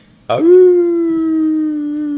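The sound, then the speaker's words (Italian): A wolf howls in one long, loud, sustained note rich in harmonics. It starts abruptly, rises quickly, then holds a steady pitch to the end. “Ululò il lupo Cerino”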